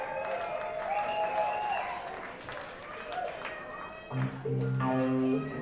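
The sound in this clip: An audience at a Boston show gives steady applause and cheers welcoming a band from Boulder, Colorado. A man talks over the crowd, and music begins near the end.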